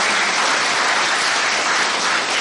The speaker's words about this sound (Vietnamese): Tròn tràng pháo tay đây đã nào.